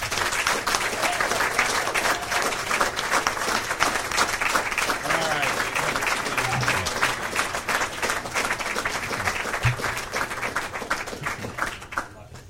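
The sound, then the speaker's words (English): A crowd applauds candidates being welcomed onto the stage at a forum, with thick, continuous clapping and some voices mixed in, staying loud throughout before easing slightly at the very end. “whistling, that kind of thing during the forum, but you can do that now”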